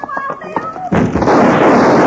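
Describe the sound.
Gunfire in a radio drama shootout: a voice is heard briefly before a loud, sustained burst of blasts roars in and continues to the end.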